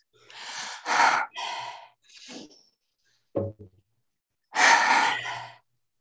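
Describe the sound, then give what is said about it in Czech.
A person performs a deep breathing exercise, forcefully inhaling and exhaling in several loud, airy bursts separated by short silences, with no talking. “je to nádech, výdech, co nejvíc a vykulit oči.”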